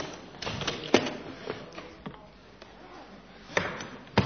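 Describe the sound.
A suitcase being opened, with a few soft knocks and clunks spread irregularly over a low background, the last two sharper and louder.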